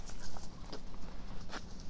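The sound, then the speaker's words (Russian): Light tapping and rattling as a pet scampers around with a plastic bottle it has grabbed. A few brief clattering knocks sit over a low background hiss, with no talking. “носится с какой-то пластиковой бутылкой и мешает мне записывать видео”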